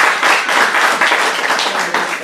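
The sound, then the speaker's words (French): A church audience applauds a person, with dense, steady clapping that stays fairly loud throughout and has no clear pauses. No voices stand out. “Ah ben lève-toi. Voilà, on l'acclame. Alléluia.”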